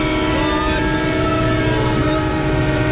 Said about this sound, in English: I'm at the train station.